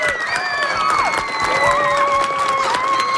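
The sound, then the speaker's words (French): An audience applauds loudly for three students who sent in questions, with dense steady clapping and high cheering voices rising above it. “je veux qu'on applaudisse vraiment très fort les trois élèves qui nous ont envoyé des très, très bonnes questions.”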